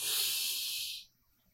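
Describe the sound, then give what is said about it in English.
A deep breath drawn in, heard as a single long, airy hiss. It holds steady and fairly loud for about a second, then fades out. “take a deep breath in with me. And let's get present to the energy flowing all through you. On the count of three, one, two, three, deep breath in”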